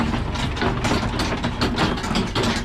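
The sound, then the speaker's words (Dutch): A tractor in a pear orchard in Wamel, Gelderland, hauls large crates of freshly picked pears to cold storage, its engine droning steadily under a continuous mechanical rattle and clatter throughout. “En die worden door een tractor naar de koeling gereden.”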